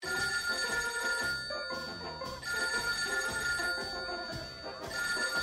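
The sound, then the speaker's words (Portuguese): A telephone rings with an incoming call, its bright, sustained ringing repeating in several long bursts at a fairly low level. “Vamos atender a mais uma ligação no programa do Bingo. Alô? Pode falar.”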